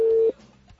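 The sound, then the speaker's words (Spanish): A telephone line tone sounds during a call: one steady, clear electronic beep lasting about a third of a second, then it cuts off to a faint, low hum of line noise. “Nos iba a mandar al buzón y ya está sonando de nuevo.”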